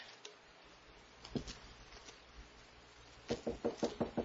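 Knocking on a door: a few soft taps early on, then a quick, evenly spaced series of faint knocks near the end over a quiet background.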